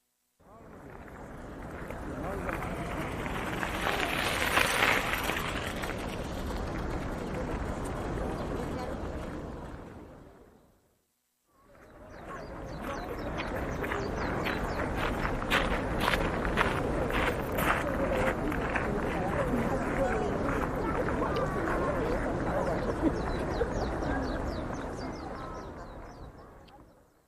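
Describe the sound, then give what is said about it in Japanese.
Visitors' footsteps crunch on gravel at Kyoto Gyoen during the Aoi Matsuri festival. The dense, continuous crunching comes in two long stretches split by a brief pause. “This is the sound of visitors walking on the gravel at a festival called Aoi Matsuri.”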